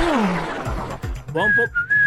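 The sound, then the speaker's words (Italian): A person whistling a theme tune: a short, clear, high whistled phrase with a brief break partway through, coming near the end after a stretch of voices. “Sei già bello fischiettante, Com'è? Urca, cosa fischiettavi? La sigla?”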